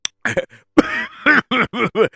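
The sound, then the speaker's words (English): Coughing after nearly choking on a drink comes as a run of many harsh, loud coughs. Some of them carry a raspy voiced edge, and they are spaced in quick, uneven bursts. “pardon me, excuse me. I almost choked on my drink over here.”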